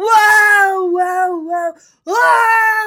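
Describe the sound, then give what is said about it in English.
A voice imitates loud, bitter wailing: a long sustained cry whose pitch wavers and steps down, a brief break, then a second cry that swells up again, loud and strained. “Whoa. That's a good reenactment, yeah. Right? That's wailing bitterly and loudly, right?”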